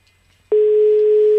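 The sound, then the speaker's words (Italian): A telephone rings: a steady, single-pitched electronic tone starts abruptly after a half second of near quiet and holds unbroken and loud to the end. “Sta squillando un telefono”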